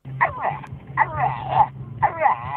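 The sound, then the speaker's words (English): A dog makes talking-like vocal sounds played back from a video: three warbling, rising-and-falling yowls in quick succession over a faint steady low hum. “That's the dog talking.”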